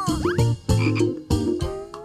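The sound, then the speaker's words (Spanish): A frog croaking: three loud, harsh, low-pitched croaks in a rhythmic series with brief gaps between them, heard on their own. “Es el de una rana.”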